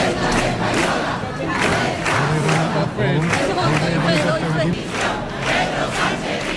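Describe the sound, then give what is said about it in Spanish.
A large crowd chants and shouts at a rally outside the town hall in Ceuta that spills into the nearby squares. The crowd noise is loud and dense, with repeated shouted bursts in a pulsing rhythm. “La movilización celebrada ante el Ayuntamiento ha desbordado el entorno del consistorio y se ha extendido hacia las plazas aledañas. Este era el ambiente que se escuchaba durante la concentración.”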